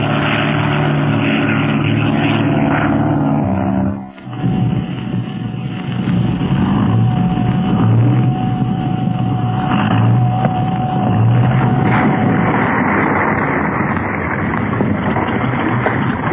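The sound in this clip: Propeller drone of a seaplane landing and taxiing on water, a loud, steady engine roar that dips briefly once early on, then holds evenly to the end.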